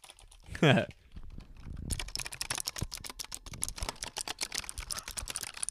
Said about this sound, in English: Clickety clackety clickety clackety. Oh, that space bar sounds kind of funky.